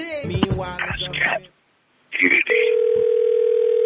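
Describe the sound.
A telephone tone from an unanswered call: after brief talk and a pause, a steady, single-pitched electronic tone holds on evenly and loudly.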